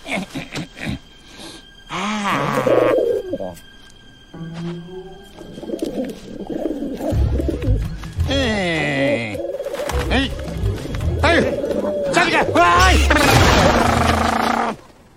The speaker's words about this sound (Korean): 비둘기 녀석.